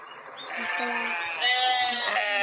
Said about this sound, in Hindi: जी बकरी है, बकरा या बकरी? बकरा बकरी, चलें दोनों ही हो जाते हैं, एक ही तरह की आवाज है